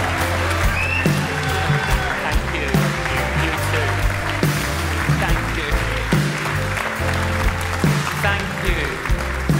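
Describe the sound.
A church audience stands and applauds in welcome of a visiting canon, steady dense clapping over loud music with a strong, thumping bass line.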